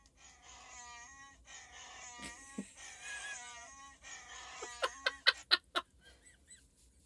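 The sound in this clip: A voice imitating the purring growl of a big furry alien creature, a faint warbling, honk-like moan in several drawn-out stretches, followed by a few short, sharp bursts.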